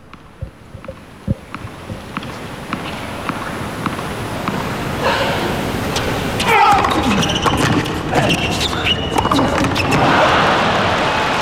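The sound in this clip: Djokovic serves in a professional tennis match: a series of sharp ball bounces pops at intervals, followed by a swelling wash of background noise.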